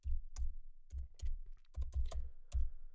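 Typing on a computer keyboard: many crisp clicks and thumps in irregular clusters, moderately loud and alone, with no talk over them.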